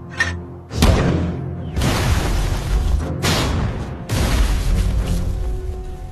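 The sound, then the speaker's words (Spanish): German mortar and artillery fire booms through a forest in the Colmar Pocket during the Second World War. Several heavy, deep blasts land at irregular intervals, and a loud, rumbling roar carries on after each one. “El enemigo acaba de anunciar su presencia con unos disparos de mortero y artillería en el bosque.”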